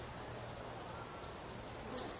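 Rain falls as a steady, even hiss of dense patter, quiet and unchanging throughout with no distinct drops standing out.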